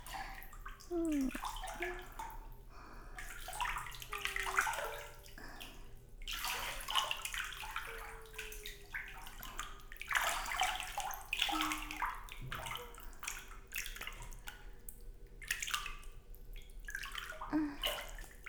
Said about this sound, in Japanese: それでは、髪お湯で流しましょうか。